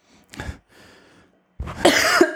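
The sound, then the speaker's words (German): Someone coughs a few times: a short, sharp cough, a fainter stretch of rough throat noise, then a louder, longer burst of coughing. “wenn du husten musst, du husten.”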